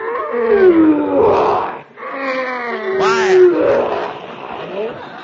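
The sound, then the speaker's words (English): A lion named Leo roars inside a circus cage: two long, loud, growling roars with a tonal core, separated by a brief pause. “Quiet. Quiet, Leo. One more peep out of you, and I'll send you back to MGM.”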